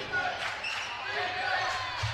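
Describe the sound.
A basketball being dribbled during a game gives off a steady series of soft thumps, heard beneath continuous commentary.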